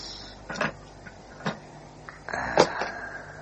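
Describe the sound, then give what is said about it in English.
A window slid open a fraction, heard as a few faint scraping and knocking sounds; the longest and loudest comes near the end. “Now, if I can slide this window open a fraction.”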